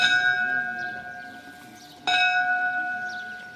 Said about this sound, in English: the other thing we do is, every time we go to whakamuimiti, when that bell rings,